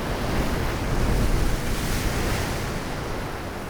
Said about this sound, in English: the sounds of the wind through the trees on the coast, the sound of the coast, the waves battering the shore